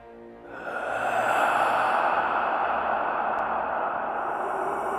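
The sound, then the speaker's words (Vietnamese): A long, eerie breath sounds out of the darkness as a steady, breathy hiss. It swells within the first second and then holds, loud and unbroken, for several seconds, with no voices. “Vẳng trong bóng tối vang lên một tiếng thở rợn người.”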